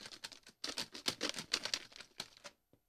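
Dry, papery rattling of prize-drawing entry slips shaken up in a container, coming in quick bursts of clicks and patter that stay fairly faint, then a short pause and one last small tap.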